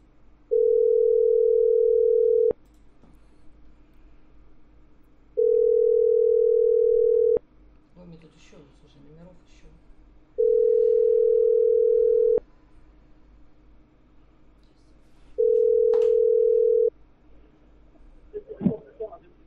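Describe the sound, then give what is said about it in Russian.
Telephone line tone sounding in four long, steady, mid-pitched bursts at even intervals, separated by quiet gaps with faint background noise. “Вот, давай мне, сейчас я его наберу.”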